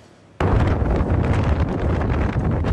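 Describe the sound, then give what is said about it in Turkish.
Strong storm wind gusting in Istanbul as a dust cloud covers the sky. It starts abruptly as a loud, broad, buffeting roar and stays dense and turbulent to the end, with no voices. “Önce toz bulutu gökyüzünü kapladı. Ardından kuvvetli rüzgar etkisini gösterdi.”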